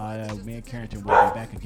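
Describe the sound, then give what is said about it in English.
A protective dog barks while guarding the home, a brief sharp burst heard under a man's ongoing talk. “you can hear our protective dog barking and guarding the home.”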